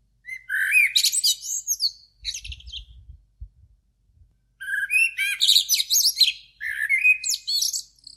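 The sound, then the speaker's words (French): Blackbirds sing in a city before dawn, loud whistled and warbling phrases coming in a few bursts separated by a short quiet gap, with some soft low thumps beneath the first pause. “J'écoute les premiers merles chanter.”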